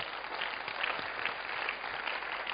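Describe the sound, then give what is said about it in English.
A church audience claps their hands in applause, a steady, fairly soft patter of many hands that stays level throughout. “Clap your hands for the Lord.”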